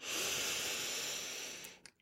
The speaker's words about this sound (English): take a nice deep inhalation and then a nice deep exhalation, and again one more deep inhalation